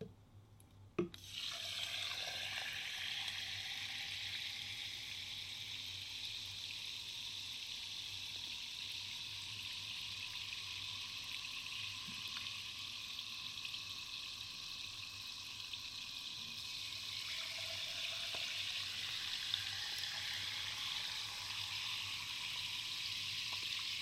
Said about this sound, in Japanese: この感じがすごく耳に心地いいんだよね。もっと注いであげるね。